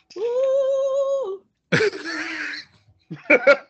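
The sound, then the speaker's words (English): A person clears their throat, starting with a sustained hummed tone, then a rough, raspy clearing, and ending with two short, sharp coughs. “Let me lubricate my throat. Hold on.”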